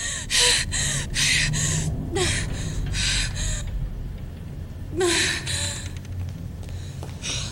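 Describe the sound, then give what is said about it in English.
A voice imitates a woman's odd half-nasal, half-gasping sound, made as she catches her breath: a series of sharp, breathy gasps and snorting intakes in quick bursts, fairly loud, with short pauses between them. “she makes this weird sound. Gasping. It's like half nasal, half gasp, but it's like she does it all the time.”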